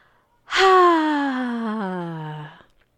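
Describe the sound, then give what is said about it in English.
A loud, voiced exhale in a guided relaxation breathing exercise. It is a long, breathy sigh of about two seconds, with pitch gliding gradually downward before it stops. “And then again, breathe out as loudly as we can and let it all go.”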